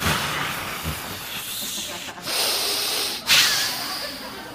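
A person takes a loud, forced breath in, a long hissing, snorting inhale with a sharper, louder surge of air near the end.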